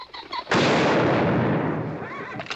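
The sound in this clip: A single loud gunshot, a sharp blast that fills the sound and decays in a long rumbling tail; a faint voice is heard just before it.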